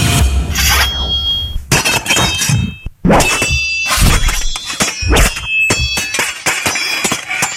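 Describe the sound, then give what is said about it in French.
Swords clashing in a loud flurry of sharp metallic strikes and ringing clangs, with irregular bursts of hits, a brief pause near the middle, then more rapid blade-on-blade impacts. “je dirais que c'est un son d'épée. Ben oui, ce sont des épées”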